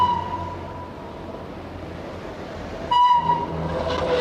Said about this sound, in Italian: Ah, ma questo è un treno